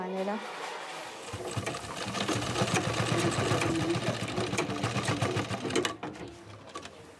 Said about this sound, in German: Nähstuben von Schneidern. Nähen ist hier Männersache. Ich nähe das ganze Jahr über Uniformen.